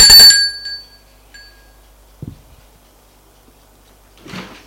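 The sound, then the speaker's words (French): A doorbell rings once, a bright metallic chime that decays quickly, followed by quieter scattered thumps and a soft rustle in an otherwise quiet stretch. “Matin, on sonne chez Charles.”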